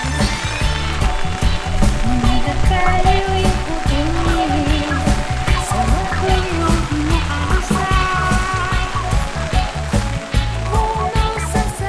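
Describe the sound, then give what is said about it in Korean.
Steady rain hiss fills the whole clip, dense and unbroken, with a melodic tune and low rhythmic bass notes running beneath it. “빗소리도 다 들어가겠다.”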